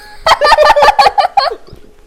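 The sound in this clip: A chicken lets out a rapid burst of loud, nasal, stuttering calls, each syllable bright and harmonic, before the sound trails off into faint clucks.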